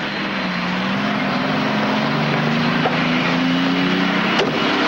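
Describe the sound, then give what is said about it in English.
Steady, loud engine drone of aircraft and car traffic at an airport drop-off, with a low hum that rises slightly in pitch across the span. “The next day, Courtney drops Marcus off at the airport.”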